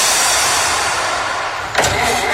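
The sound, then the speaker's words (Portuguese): A car engine failing to start as the key is turned, giving a steady grinding whir with a brief louder burst near the end. “Virou a chave e o carro não pegou.”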